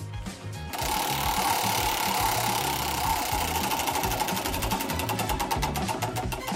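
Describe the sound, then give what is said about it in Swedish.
A prize wheel spins with a dense, rapid mechanical ticking from its pointer, loud and continuous after a brief lead-in, the individual clicks growing more distinct toward the end. “Så att vi ska dra på hjulet och så får slumpen avgöra vad blir det idag.”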